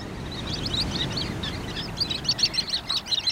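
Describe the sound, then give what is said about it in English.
Pale, silvery shorebirds at the water's edge on a winter shoreline give many short, high chirping calls, sparse at first and then quicker and louder, over a low steady background rumble. “little flocks of pale, silvery shorebirds probe at the water's edge, keeping pace with each wave's ebb and flow.”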